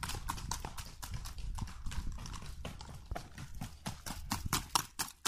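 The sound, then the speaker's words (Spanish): Horse hoofbeats across trot, gallop, paso fino and trocha gaits: many quick, crisp clip-clop strikes in a fast, driving rhythm, with a few heavier, louder hits near the end. “Todas las modalidades son diferentes y los sonidos son diferentes. Hay trote y galope, paso fino, trocha”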